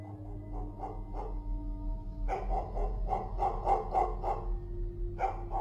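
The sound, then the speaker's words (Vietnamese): A pet dog standing in a yard at night barks loudly and persistently outward: many sharp barks come in quick bursts over a steady low hum. “Rồi đến lúc chính cả con chó bà nuôi đang nằm ở dưới gầm giường cũng chui ra chạy xuống sân. Nó cứ đứng chõ ra bên ngoài mà sủa inh ỏi.”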